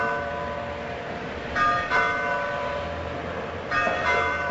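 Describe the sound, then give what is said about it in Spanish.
Church alarm bells ring out in a town. A few bright clangs rise in two brief clusters over a steady, constant background noise. “Al mismo tiempo, en la villa se escuchan las campanas de alarma que anuncian la llegada de los”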